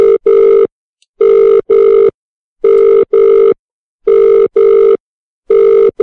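A telephone rings in repeated paired bursts of a steady electronic tone, with even pauses between the pairs. Four double rings sound, then the start of a fifth, with no talking.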